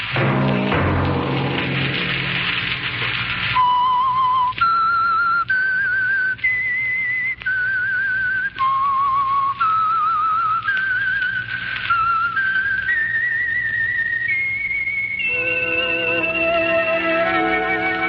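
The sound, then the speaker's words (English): A whistled signal tune, a bright melody of sustained and stepping notes rising gradually in pitch, loud and alone over a low orchestral backing, with no talking. “That whistle be your signal for the Signal Oil program, The Whistler”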